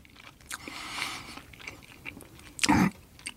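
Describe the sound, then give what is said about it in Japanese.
A single crisp bite into a soft azuki red bean bun filled with cream, a short, dense crunch near the end of an otherwise quiet stretch with no talk. “小倉というのをですね、今手に取ってるんですが、まあもちろんね、えー、これまでもいくつも食べてきたんですが、す改めて社長の前で食べるというのも価値があるでしょうから、ちょっと一口食べさせていただきたいと思いますけども。”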